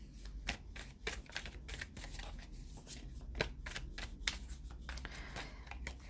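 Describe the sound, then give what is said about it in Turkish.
Cards are shuffled and picked during a card reading, a rapid string of soft riffling and slapping flicks that stays fairly faint and steady throughout. “Şuradan kartlar seçeceğim.”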